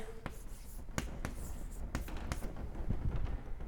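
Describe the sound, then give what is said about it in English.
Writing on a board: faint scratchy strokes and a few sharp taps of the pen, scattered irregularly over a low background hiss. “So let me write these on the board.”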